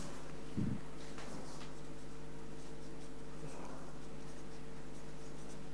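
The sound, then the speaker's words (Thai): Hand-writing answers quickly during a timed five-question quiz, faint rapid scratching strokes over a steady low hum. “เขียนไวมาก”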